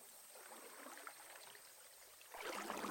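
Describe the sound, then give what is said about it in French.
A small trickle of water runs faint and steady, a soft hissing babble that swells noticeably louder near the end. “Et sur ce petit bruit d'eau”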